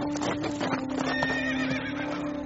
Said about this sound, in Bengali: রায়মল্ল সাহেব তীর বেগে ঘোড়া ছুটিয়ে অজয় সিংহের বাড়িতে পৌঁছলেন।